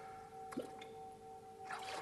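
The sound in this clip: Water squishing, dripping and trickling as transparent water cups are dipped into water, played as water instruments; a few soft splashy dips sit over a faint, steady ringing tone.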